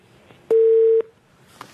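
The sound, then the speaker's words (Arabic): A single steady, mid-pitched telephone beep lasting about half a second sounds after a call-in caller's line dropped, with faint clicks on either side. “فقد الاتصال. طيب نتصل ان شاء الله، ارجو ان يحاول اخونا مره اخرى.”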